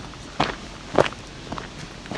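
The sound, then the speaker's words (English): Footsteps walking through a maple forest, a few soft, faint steps at a steady, unhurried pace over quiet background hiss. “Now we're walking through maple forest.”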